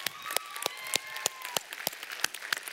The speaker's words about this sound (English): Who's clapping?